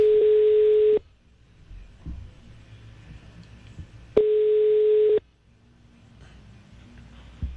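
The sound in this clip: Ringback tone heard while placing a telephone call: two steady one-second beeps at a single mid pitch, separated by about three seconds of near-silence.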